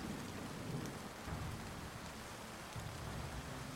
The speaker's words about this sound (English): the two of you suddenly notice this like clap of thunder in the distance to the north